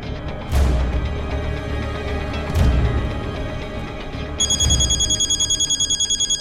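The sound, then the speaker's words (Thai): A telephone bell rings in a rapid electronic trill that begins near the end, over a dense, noisy background with a few low thumps. “สารวัตรกฤษดาโทรบอกเขาดีกว่า”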